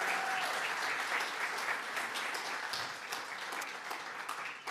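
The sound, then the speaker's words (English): Applause from an audience after an announcement that a couple has welcomed a newborn baby: dense, steady clapping that carries on evenly for the whole stretch, tapering only slightly toward the end. “Let's give them a hand.”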